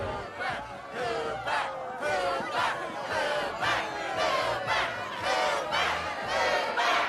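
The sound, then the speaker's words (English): A large crowd at an event yells and shouts in loud, rhythmic surges that repeat many times, with overlapping voices forming a dense, roaring chant. “as she gets up to go away, the crowd's yelling,”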